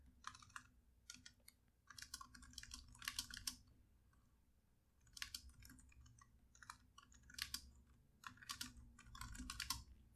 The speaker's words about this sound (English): Sorry, I'm just gonna write that down.